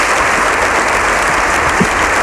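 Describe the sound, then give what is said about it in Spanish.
Standing ovation in the Spanish Congress chamber, a loud, dense roar of many hands clapping that stays continuous and even throughout. “Toda la cámara de pie aplaude al completo por lo que... Esto sí que es un milagro.”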